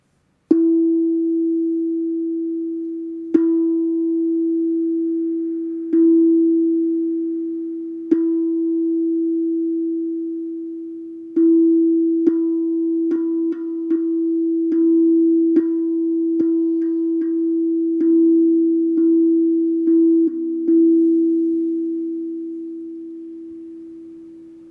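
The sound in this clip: A sustained musical tone on the note E rings steadily and is re-struck a few times seconds apart, then many more times in quicker succession, before slowly fading out.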